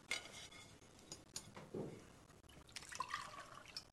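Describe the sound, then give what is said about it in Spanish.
Water is poured from a jug into a glass at a kitchen table: quiet trickles and drips with light clinks of glass and cutlery, in soft scattered bursts. “se sirve agua”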